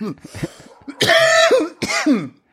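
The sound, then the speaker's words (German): After someone chokes on their own saliva, a few harsh, rasping coughs and a throat clear break out. Two loud bursts follow softer hacking at the start. “an der eigenen Spucke verschluckt, herrlich.”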